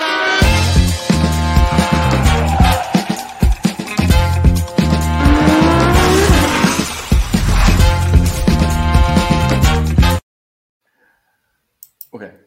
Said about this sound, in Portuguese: Então, bota aí a vinheta. Vinheta.